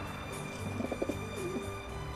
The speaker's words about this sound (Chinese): 在广告牌的大写字母 B 里，住着一只鸽子。哦，对了，它是一只灰色的鸽子，名字叫西德